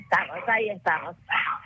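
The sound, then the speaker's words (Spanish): Noisy dogs barking, a few harsh, yappy barks in quick succession, each bright and clipped, with short gaps between them. “Son unos perros muy escandalosos.”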